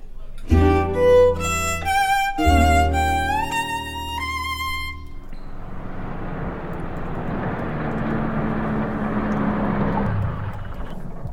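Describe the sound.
A car drives up a hill at night. A steady, moderately loud engine and road rumble fills the second half, after a few seconds of tonal sounds at the start.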